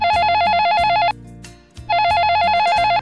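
A telephone ringing in two long, loud electronic trilling bursts with a brief pause between them.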